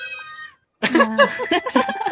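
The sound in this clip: A household cat gives one clear, fairly loud meow with a steady pitch. After a brief silence, a person starts talking.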